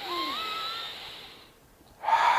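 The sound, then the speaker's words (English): Breathing during a belly breathing exercise: a long, airy breath with a faint whistling tone running through it fades into a brief quiet gap, then a louder, rushing breath follows. No talk. “So you put a hand on your belly, one on your chest, and then you go, only belly breathing is the first step.”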